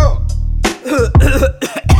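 A few harsh, loud cough bursts in quick succession over a low, droning bass background.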